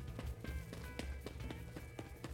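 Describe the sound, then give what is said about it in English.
Footsteps go down a hallway and past a door, a quick, steady run of many crisp, faint steps at about four per second over a low background rumble. “Now what you're hearing now, what's about to start with the footsteps going down the hall, past the door,”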